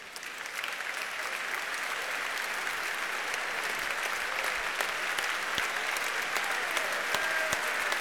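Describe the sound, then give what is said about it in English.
Steady, dense audience applause greets actress Patricia Routledge as she walks on stage, an unbroken wash of clapping lasting the whole stretch. “So many endless cheers. We are spoiling you tonight.”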